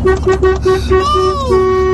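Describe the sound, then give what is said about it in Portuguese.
A car horn honks repeatedly in a road dispute. Short, evenly spaced toots give way to a longer sustained blast, loud over a steady traffic rumble. “E o outro continua buzinando ainda aqui.”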